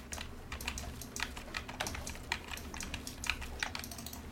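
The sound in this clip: Computer keyboard keys pressed during a video game, the E key among them: many quick, sharp clicks in an uneven, rapid rhythm over a steady low hum, with no talk.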